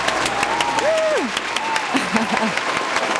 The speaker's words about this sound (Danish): Har vi ikke lige en klapsalve? Vi har en klapsalve.